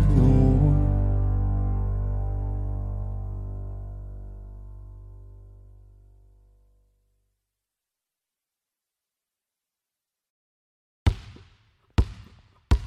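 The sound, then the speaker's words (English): A basketball thuds three times in sharp, separate bounces during a shootaround, following a long low tone that fades into silence. “HG and I are just putting some shots up. Let me bury this three real quick, though.”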